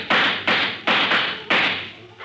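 Pistol shots ring out in a shootout: several sharp, loud cracks in quick, uneven succession, each one dying away quickly before the next.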